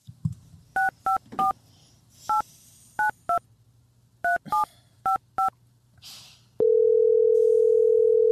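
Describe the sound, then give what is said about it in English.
Telephone keypad tones dial out a call: ten short, loud two-note beeps in uneven groups over a faint background hum, followed by a steady continuous line tone that holds to the end. “All right, I'm dialing up Hayes.”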